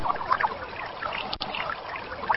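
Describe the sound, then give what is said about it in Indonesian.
Water poured and splashing over feet during wudu ablution, a soft, steady trickle and spatter that continues throughout. “dan pencucian kaki dimulai dari kanan terlebih dahulu sebanyak 3 kali, baru kemudian mencuci kaki kiri sebanyak 3 kali.”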